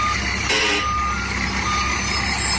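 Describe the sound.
A reversing truck sends out a loud warning beep over its steady, rumbling engine. The beep tone rings out early and the engine noise carries on throughout.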